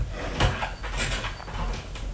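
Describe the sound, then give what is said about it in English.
A pet pushes against a door held shut by a big box, giving one soft low thump early on, then continuous muffled rubbing and scraping noise. “But I put a big box up against the door so they can't push it open. It's okay. Go to sleep. But he's really trying.”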